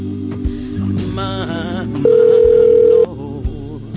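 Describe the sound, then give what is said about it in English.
A telephone ringing: one loud, steady, mid-pitched ring tone lasts about a second over a backing of music and busy background sound, then cuts off abruptly. “Something to do while the phone's ringing.”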